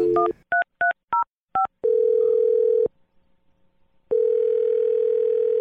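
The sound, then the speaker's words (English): A telephone number is dialed: several keypad beeps sound in quick succession. A long steady tone follows and cuts off, then after a stretch of quiet the same tone resumes. “We're going to dial the number.”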